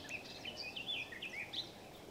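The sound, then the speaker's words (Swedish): Faint songs of a willow warbler and a garden warbler: quick, high, twittering phrases overlapping one another above a steady background hiss. “Just nu är det lövsångare och trädgårdssångare som sjunger.”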